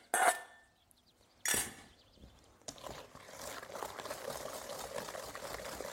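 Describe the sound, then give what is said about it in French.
Beaten eggs poured all at once into a mixture: two short bursts, then a steady, wet liquid rush that carries on to the end. “Maintenant, j'ajoute mes œufs battus. Toujours ma fourchette dedans, je les remélange un petit coup. Je verse tout d'un coup dedans.”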